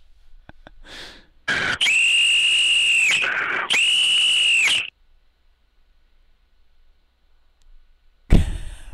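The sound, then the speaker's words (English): A high-pitched whistle is blown to get someone's attention in two long, loud, steady blasts separated by a short gap, then quiet. “Try to get him with Fred's whistle.”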